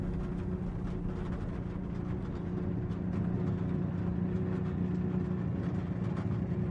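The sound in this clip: A car moving slowly through pouring rain, as heard from the back seat: a steady, faint low engine rumble blended with continuous hiss, unbroken throughout and with no voices.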